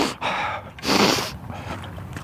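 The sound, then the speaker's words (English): A deep, snotty breath drawn noisily through the nose in two rushes of air. The second rush is louder and longer, and faint, uneven breathing trails after it, with no talk. “Kind of a snotty deep breath, but you get the point.”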